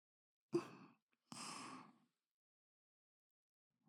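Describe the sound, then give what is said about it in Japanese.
Deep breathing to ease body tension: two quiet, airy breath sounds, a brief sharp one followed by a longer, softer one, then silence. “体の緊張をほぐすためにちょっと深呼吸しましょう。”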